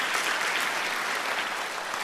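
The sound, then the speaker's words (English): A church audience applauds as a new elder is introduced. The clapping is loud, steady and densely packed throughout. “It's going to be a clap-a-thon, okay? Who's going to get the most claps today, okay?”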